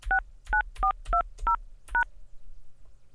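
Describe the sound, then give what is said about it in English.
Telephone keypad DTMF tones entering a voicemail password: six short, bright dual-pitched beeps pressed in a quick, fairly even sequence, the last a little delayed, then quiet line hum. “Please enter the password you have chosen, then press pound.”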